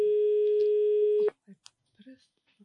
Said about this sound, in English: I think we have lost the caller.